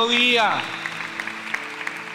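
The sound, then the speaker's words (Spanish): Congregation applause during a Spanish-language church sermon begins as a speaking voice trails off. It then continues as scattered, moderate claps over steady sustained tones. “denle un aplauso a Jesucristo”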